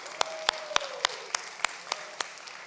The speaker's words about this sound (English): So if we could, can we just kind of turn around a little bit to that camera, just wave at them and put our hands together and welcome our Facebook family?